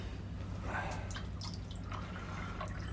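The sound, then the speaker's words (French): Tea poured from a pot into a cup, heard as faint liquid trickles and drips over a low, steady background hum, with no voices. “sers-moi du thé.”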